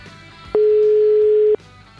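A telephone ringback tone as a call is placed: one loud, steady, clean mid-pitched tone lasting about a second, alone over faint line hiss.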